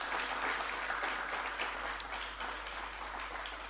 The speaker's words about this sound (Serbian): ali vas molim za jedan zaista veliki aplauz da ga čuje do Brača.